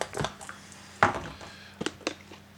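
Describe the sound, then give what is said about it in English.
Dice rattle and clack on a table during a tabletop wargame morale check: a few sharp, quiet clicks come in irregular bursts, and the loudest knock lands midway. There is no talking. “I roll a 6, so I add 1 to the dice roll, which brings it up to a 7.”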